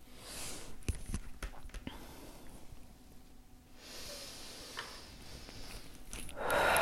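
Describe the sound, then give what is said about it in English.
Slow, deep breathing during a guided relaxation exercise: soft, airy inhales and exhales at low volume, ending in a louder, hissing breath. “Let's take some deep breaths.”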